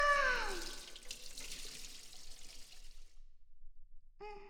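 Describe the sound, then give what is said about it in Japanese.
Hot water poured over someone's head during a hair wash in the bath: a splashing stream strongest at the start, easing into a quieter trickling wash that fades out before a short silence. “お湯をかけるから、目をつむって。”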